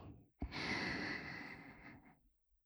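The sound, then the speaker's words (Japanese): A single slow, deep breath drawn in through the mouth, soft and airy, swelling quickly and then easing off over about a second and a half. “力を抜いて、ゆったり息を吸って、”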